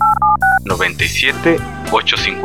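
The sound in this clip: Telephone keypad dialing tones: three short, bright beeps in quick succession, followed at once by a voice speaking.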